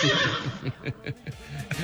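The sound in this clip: A horse whinnies in a short radio sound effect, a quavering, rapidly pulsed neigh that stutters through several bursts and then trails off.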